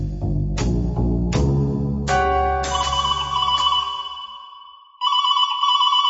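A telephone rings with a warbling electronic tone, steady and repeated, after a few chime-like notes over a low rumble; no voices are heard.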